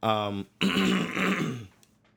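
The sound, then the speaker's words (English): Someone clears their throat: a short voiced sound, a brief pause, then a rough, raspy rumble lasting about a second that trails off into quiet. “That was a clearing of the throat.”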